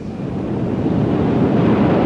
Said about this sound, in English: It's the tide! It comes in faster than an express train.